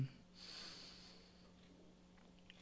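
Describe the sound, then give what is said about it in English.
A single deep breath in, drawn slowly through the nose as a faint, soft, airy rush that swells and then fades. “We take another deep breath in.”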